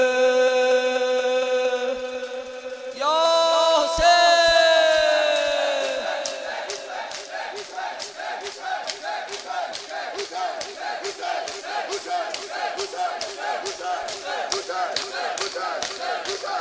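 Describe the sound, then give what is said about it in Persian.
Mourners in a Shia mourning ritual beat their chests in steady, rhythmic slaps. The beating is preceded by loud collective chanting and shouting from the crowd, and the rapid slapping then carries on evenly to the end. “یه دست تو بالا بیار، با یه دست به سینه بزن، بگو حسین”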